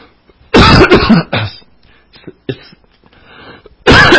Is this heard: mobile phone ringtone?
no